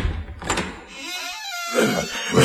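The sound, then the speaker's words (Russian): Heavy doors of a king's throne room flung open, heard as a few dull thuds and bumps over a low rumbling background. “Внезапно двери распахнулись”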